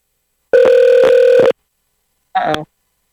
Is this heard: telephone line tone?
yes